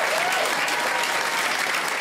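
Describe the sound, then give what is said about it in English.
Loud audience applause welcoming a comedian onto a stand-up stage, dense and unbroken clapping that stays at a constant level from start to finish. “Put your hands together and welcome the fine comic talents of Carolina Hearn.”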